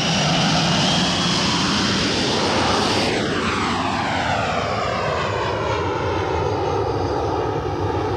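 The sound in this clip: An airplane flies from Paris to Caracas in 1968 with a loud, steady engine roar throughout. The tone sweeps downward from midway as the aircraft passes.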